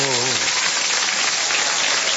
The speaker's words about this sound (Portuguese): Vamos lá aplaudir com alegria os aniversariantes, gente. Aplaude aí.